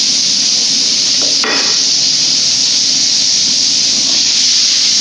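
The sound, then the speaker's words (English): Vegetables searing in a hot pan give off a loud, steady sizzling hiss that holds evenly throughout, broken once near the start by a brief clatter. “This vegetable's got good sound. That searing sound, you never get old.”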